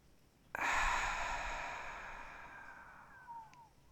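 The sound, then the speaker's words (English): One long, soft breath during a guided deep-breathing exercise. It starts suddenly with an airy whoosh and fades slowly over about three seconds. “Inhaling through your nose. And exhaling through your mouth.”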